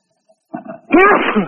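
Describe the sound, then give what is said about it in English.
A person sneezing on an open microphone during a group call: a short, quiet intake followed by one loud, sharp sneeze burst that trails off over about half a second. “Would the guy with the sneezes and coughing please mute out?”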